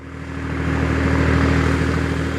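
A vehicle's engine drones as it carries a 500-litre tank up steep hairpin bends toward a forest, a low, even hum that swells gradually and then holds steady, with no voices.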